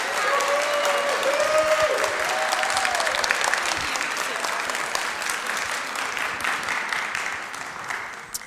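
A church Bible study audience applauds a staff member, with loud, dense clapping from many hands that holds steady for more than eight seconds and thins slightly toward the end.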